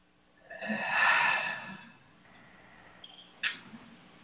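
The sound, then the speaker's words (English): A group of people taking a deep breath together: a soft, swelling, breathy rush lasting over a second, followed by a few faint, brief sounds. “just take a deep breath all together, just to regroup.”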